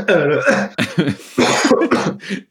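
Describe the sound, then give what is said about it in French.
Coughing from a person choking in the middle of a conversation. Several harsh, throaty bursts come in quick succession, some with raspy voiced edges, loud and alone. “je suis en train de m'étouffer, pardon.”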